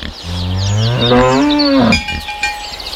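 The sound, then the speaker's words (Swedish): A single long, loud moo from a cow stands for the sound of the living countryside. The call swells and trails off, followed by a few faint sounds. “ljudet av en levande landsbygd”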